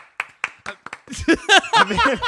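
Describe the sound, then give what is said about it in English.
A few sharp, separate hand claps in a loose rhythm, then overlapping talk as people start speaking over each other. “I'm the opposite on clapping now. I fucking love it. I'm going to start clapping”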